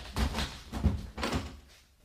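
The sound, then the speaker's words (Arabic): A door is pushed shut on a captive as guards take up their post, giving a few heavy, low wooden thuds in quick succession that fade at the end. “وأغلقوا الباب ووقفوا عليه الحرس والحجاب.”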